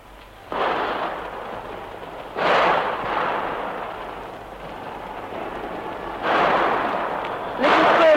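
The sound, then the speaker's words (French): Gunfire crackles inside a church where people are taking cover under chairs. It comes as dense, noisy rattling that surges loud in four bursts and sustains between them. “Les coups de feu crépitent toujours.”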